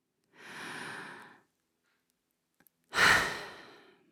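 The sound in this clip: Audible breathing from women speakers in the pauses of their reading: a soft, airy breath, then silence, then a louder, sharper breath that fades out. Nobody talks.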